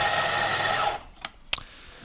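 An electric coffee grinder grinds beans for espresso: about a second of dense, loud whirring buzz that cuts off abruptly, followed by two short, sharp clicks.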